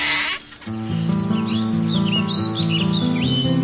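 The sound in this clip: Birds singing on a bright summer day: repeated high chirps and twitters over a steady, sustained musical backdrop, after a brief loud burst of noise at the start.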